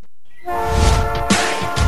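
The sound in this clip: Train horn on a railway line sounds a loud, sustained chord-like blast that begins after a moment of near silence, with low rumbling underneath.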